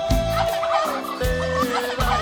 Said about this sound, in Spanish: te falta un guajolote. ¿Tenemos guajolote? Ándale.